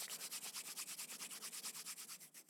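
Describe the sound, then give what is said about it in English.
Oiled palms rub together briskly, giving many quick, even strokes of soft swishing friction in a steady rhythm. The sound is faint and heard alone. “Taking some oil in your hands now, rub your palms together briskly to create some energy. Make your hands hot.”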